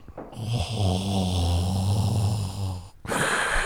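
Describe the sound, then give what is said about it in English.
A voice imitates a roommate's deep, rasping snore, drawn out like a mechanical breathing mask: one long, low, guttural rattle that holds steady for nearly three seconds and then cuts off, heard alone without talk. “My roommate sounded like Darth Vader when he snored. Oh boy. It was the most creepy thing ever, because he'd be like,”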